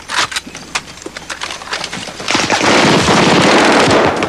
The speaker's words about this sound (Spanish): Saltan disparando.